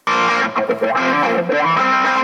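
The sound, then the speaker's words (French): Electric guitar played through heavy distortion and effects, a dense, sustained wall of overdriven chords with slight wavering, loud and continuous throughout. “Vous voyez la guitare électrique, ce n'est pas du tout la même image dans le spectrogramme.”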